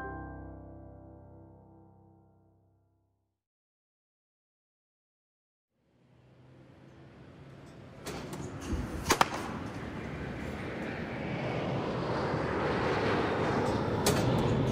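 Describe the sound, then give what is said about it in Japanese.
Jet aircraft roar from a nearby airport swells up as broad, rising noise at a batting centre. A few sharp cracks of ball hits cut through it. “空港を発着するジェット機の音がバッティングセンターの打球音をかき消していた”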